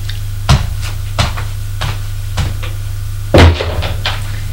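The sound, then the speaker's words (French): Knocking on a door: a few heavy, irregular thumps, with the last one loudest, over a steady low hum, and no voices. “Frappe à une porte. Entrez.”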